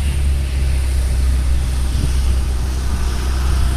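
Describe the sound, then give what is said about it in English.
A bus passes by outdoors on a windy day, a steady low engine rumble blended with broad wind noise that stays fairly constant throughout. “You can hear a bus going by.”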